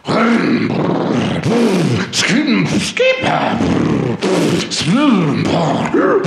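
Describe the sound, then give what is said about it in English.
A man's voice imitates a go-kart engine warming up with a series of loud, growling revs. Each burst swells and falls in pitch, and a higher whine cuts in near the middle. “I'm warming up my go-kart.”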